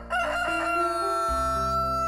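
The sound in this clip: A rooster crows once, loud and strongly harmonic, the call sustained for about two seconds with a steady tonal backing underneath.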